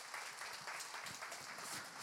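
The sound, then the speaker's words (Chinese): Congregation applauding volunteers and staff at a church service, a faint, brief patter of many hands clapping that stays even throughout. “所以我想呢段时间，请你到俾啲掌声，我哋嘅义工同埋行政同工。”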